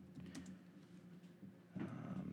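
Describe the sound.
Typing on a computer keyboard: quiet, uneven runs of key clicks that grow a little louder and denser toward the end.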